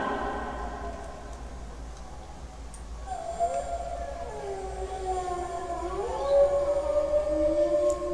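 A pack of wolves howling, several long wavering tones that glide and overlap, swelling louder toward the end above a low steady rumble.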